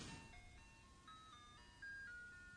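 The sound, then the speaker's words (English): An ice cream truck plays its jingle as it drives past, a faint, steady, tinkling electronic melody of bright repeating tones with no talk over it. “Hey, ice cream man. You guys have to be able to hear that. Yeah. Yeah, they can. It's still driving.”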